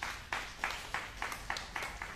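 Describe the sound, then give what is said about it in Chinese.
An audience at a Christmas Eve church service claps in unison, faint, sharp claps falling on a steady, even beat of roughly three per second throughout. “同意的拍手，把荣耀归给主。”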